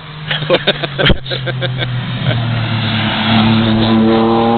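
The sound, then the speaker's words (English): A Porsche drives past at an outdoor car gathering. After a few sharp knocks at the start, a loud engine note holds steady, then climbs in pitch as the car accelerates. “Oh no, not another Porsche.”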